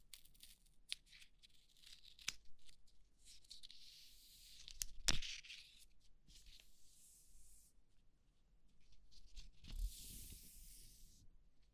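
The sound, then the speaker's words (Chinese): Soft crackling and rustling as a bandage is unwrapped, with faint intermittent tearing rips and scratchy strokes spread over several seconds; no talking. “先帮你把这个绷带拆开。”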